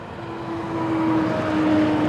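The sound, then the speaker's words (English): Big rig trucks driving through a tunnel under a large rusty metal gate in a flood-prone river town, a steady, broad engine roar that slowly swells, with a faint, even tonal whine running through it. “Big rigs are driving through under a big rusty metal gate.”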